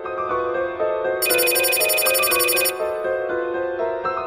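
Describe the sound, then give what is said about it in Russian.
An electronic telephone ringtone plays a steady looping melody of bright, stepped tones. A shrill, high, buzzing layer joins in the middle section and then drops away, and the ringing continues alone without voices. “Звонок раздавался все ближе и ближе.”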